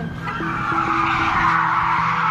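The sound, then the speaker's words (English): Car tires screech continuously during a police chase after a blue Toyota Corolla, a steady high-pitched squeal with a low engine hum and faint intermittent tones underneath, fairly loud throughout. “You can hear a siren and tires screeching in the background.”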